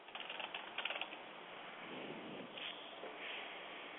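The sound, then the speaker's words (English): Typing on a computer keyboard, heard through a call line. A quick burst of crisp key clicks comes at the start, then gives way to softer, sparser tapping over a thin, muffled hiss. “if we can hear him typing, clearly”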